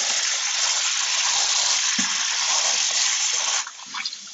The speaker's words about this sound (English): I have to wash like containers so I can put them in there.